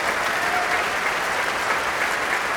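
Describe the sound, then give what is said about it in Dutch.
Concert audience applauds enthusiastically after a performance of Ysaÿe's third violin sonata. The clapping is dense, steady and fairly loud, with no talk over it. “Ja, nu hoort het, het publiek. Die is zeer enthousiast.”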